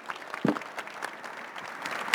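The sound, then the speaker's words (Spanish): An audience applauds panelists at the close of a conference panel, with scattered, fairly soft hand claps forming an uneven patter throughout. “otorgarles aquí un pequeño reconocimiento a nuestros panelistas, junto con el aplauso de todos ustedes,”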